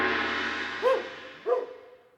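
A dog gives two short tonal barks with a bending, sung-like pitch, separated by a brief pause over a faint noisy background.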